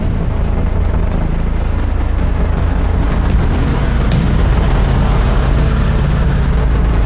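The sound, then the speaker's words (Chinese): A car with Japanese license plates drives in, a loud, steady low rumble of engine and road noise that continues throughout. “怎么还有车进来？”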